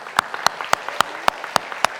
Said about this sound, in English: And we couldn't do what God has called us to do without you. And so give yourself a hand clap.